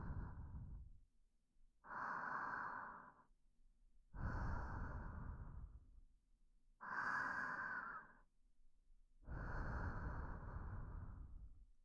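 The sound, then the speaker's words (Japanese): Slow, deep breathing by a meditation guide: about five long, evenly paced breaths, each a soft, airy swell, heard alone without talk. “私の呼吸を聞きながら自分の呼吸に意識を向けて、お腹が動くのを感じてみてください。”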